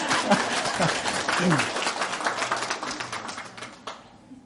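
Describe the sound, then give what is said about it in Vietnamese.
An audience claps steadily in a dense patter, with a voice briefly sounding through it early on, before the clapping thins and fades toward the end. “Giờ quý vị muốn nghe hát không? Nghe mà không chịu vỗ tay.”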